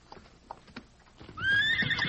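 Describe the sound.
A horse whinnies loudly while being tied to a tree, a long shrill neigh that starts high and wavers. It follows a few soft hoof knocks.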